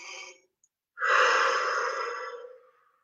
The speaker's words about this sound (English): Nice deep breath in again.